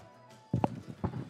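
Footsteps of a character walking in a video game: after a quiet start, a few soft, thudding steps fall at an uneven pace.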